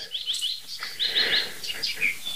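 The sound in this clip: Bird calls including tits: bright, high chirps come in short rapid bursts of several notes, with brief gaps between them, and no voices are heard.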